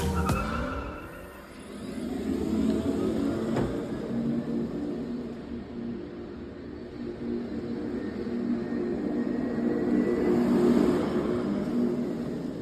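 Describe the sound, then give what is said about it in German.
An electric car drives with a synthetic, spacey sound: a sustained whirring hum with airy high tones that dips early on and swells toward the end. “Es ist ein, also für ein Elektroauto, das habt ihr jetzt ja wahrscheinlich alle rausgehört, dass das ein Elektroauto ist.”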